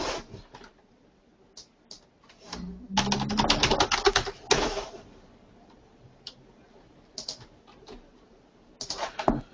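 Clicking keystrokes on a computer keyboard, typed while logging into an admin account, come in scattered taps and then a dense, rapid flurry midway, followed by more sporadic bursts of keys. No one speaks.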